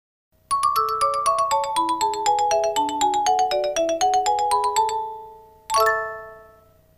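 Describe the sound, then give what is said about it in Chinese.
A telephone rings at home with an incoming call: an electronic melodic ringtone of many quick, bright notes running for several seconds, a brief gap, then one more ringing chime. “卡特琳不在家，她的朋友给她打电话，接电话的是阿姨。”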